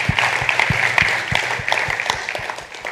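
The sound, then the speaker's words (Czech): An audience applauds: dense, steady clapping with many sharp individual claps, loud and sustained throughout without letting up. “Come on. Zatleskejme jim.”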